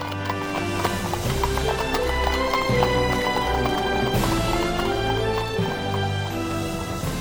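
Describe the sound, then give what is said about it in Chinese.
Horse hooves clip-clop as horse-drawn carriages travel along, a steady trotting rhythm running beneath continuous music. “特芬太太以及洛士邦医生满脸笑容，一路上愉快地谈天说笑着。布朗洛老绅士和一位青年男子也乘坐在另一辆马车上，紧紧地跟在他们后面。”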